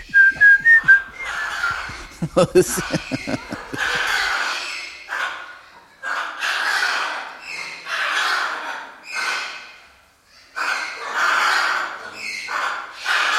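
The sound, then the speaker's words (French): Soldiers whistling, with parrots joining in: bright whistled notes at the start, then many harsh, raspy bird-like calls in repeated bursts, loud and with no talking. “Les soldats sifflaient et en arrière, tous les perroquets, les deux, commencent aussi.”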